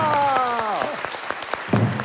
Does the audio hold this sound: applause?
yes